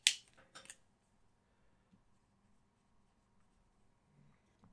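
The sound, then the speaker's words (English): A dry-erase marker draws on a whiteboard, giving a few quick, scratchy strokes at the start before near silence. “I'm drawing shit, don't worry about it. Those are just placeholders.”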